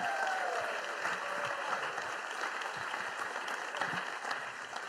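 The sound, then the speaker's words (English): An audience welcomes a speaker to the stage with applause. Steady, dense clapping holds at an even level throughout. “So why don't we just put our hands together and welcome Pete Burton up to the stage.”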